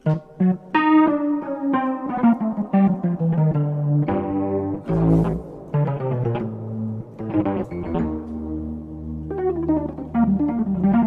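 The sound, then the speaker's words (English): A Wurlitzer 200A electric piano run through a chorus effect plays a string of bright, shimmering notes and chords. Each has a quick attack and a warbling, washed-out tone, and the playing moves in an uneven rhythm. “That's an awesome sound if you ask me. That's the chorus washed. Wurlitzer 200A, y'all.”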